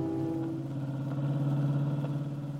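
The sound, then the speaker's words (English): A hot rod jalopy's engine runs while driving, giving a steady, loud, low rumble with a humming harmonic drone that stays even throughout the short stretch. “why are you riding with George Flint Detective in his hot rod jalopy?”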